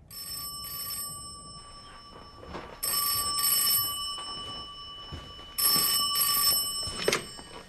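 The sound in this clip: An old-style telephone bell rings in three bright, metallic bursts, each split into two short rings, with quieter gaps and faint background sound between them.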